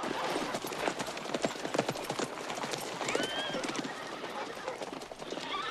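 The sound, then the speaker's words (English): Many horses gallop into a village. Their hooves make a dense, fast, continuous clatter, and a brief neigh rises over the steady, fairly loud hoofbeats. “25 bandits gallop into the village and assemble in the center.”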